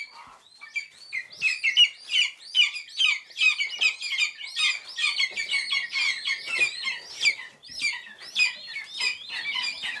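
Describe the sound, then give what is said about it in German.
Hungry lesser spotted eagle chicks at a hand-rearing station calling insistently: a dense run of many high, piercing cheeps and squeals, repeated in quick rhythm and often overlapping, continuous throughout. “Sie sind klein, grau, haben Knopfaugen, sind unfassbar flauschig und sehr laut, wenn sie hungrig sind, die Schreiadler-Küken. Hören Sie mal.”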